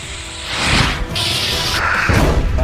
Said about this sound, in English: Whoa! That thing just ricocheted off of there.